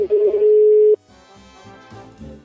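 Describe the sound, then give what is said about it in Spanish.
A telephone line being dialed out gives a loud, steady single tone for about a second, which then cuts to quieter, layered line tones with a few soft pulses. “Vamos a ver, voy a darle al teleline, al modem.”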